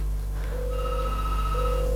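A telephone rings on a morning radio call-in line as a listener phones in: steady electronic ringing tones in two clear bursts over a constant low hum, with no talking.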